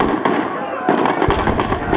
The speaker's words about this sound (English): Someone shoots Katniss.